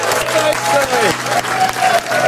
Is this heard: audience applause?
yes